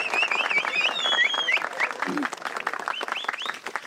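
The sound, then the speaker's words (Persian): Audience applause fills a lively gathering after a host calls for clapping. Dense clapping runs throughout, with sharp whistles over the start and a voice calling out partway through. “به افتخار خودتون و بغل دستیاتون این دست خیلی قشنگ و زیبا بزنید”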